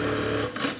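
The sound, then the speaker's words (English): A sewing machine tacks shoulder straps onto a bra, one of the final steps in making the garment at a lingerie factory. It gives a steady, dense mechanical whirring and rattling that runs throughout with no voices. “This is one of the final operations in putting a garment together. This tacks on the shoulder straps. It finishes up the last little bit.”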